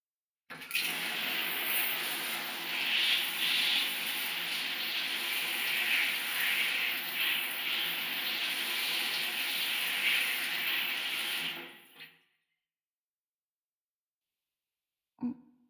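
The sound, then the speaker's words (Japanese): Warm running water rinses foam off during a wash, a continuous broad rushing hiss that holds steady for about eleven seconds and then stops. A brief, faint sound follows after a short silence. “泡で洗うのはこれくらいでいいですかね。では温かいお湯で流しますね。”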